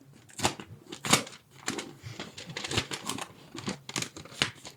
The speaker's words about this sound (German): Und dafür habe ich einen kleinen Umschlag für Sie vorbereitet. Da dürfen Sie gerne mal den Zettel rausziehen und vorlesen, was dort steht.